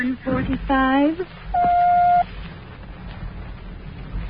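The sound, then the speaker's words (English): A telephone time-service signal from the New York City time line: one steady, mid-pitched electronic beep lasting well under a second, following a brief burst of voice and then fading into low line hiss. “When you hear the signal, the time will be 11:44 and three quarters.”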